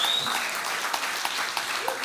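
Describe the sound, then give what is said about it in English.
Congregation applause in a North Idaho church service: dense, steady clapping from many hands, with a brief high whistle at the very start. “I can't help but notice that you clapped more about that than you did about the other things above that I told you about.”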